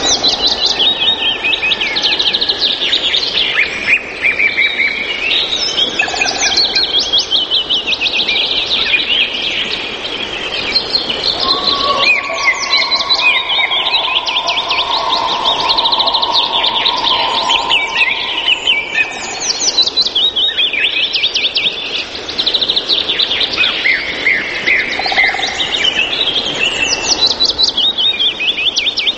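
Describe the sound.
Birds singing in a forest chorus, many overlapping chirps, trills and whistles layered densely and continuously, bright and busy from start to end, with a longer sustained call briefly standing out partway through.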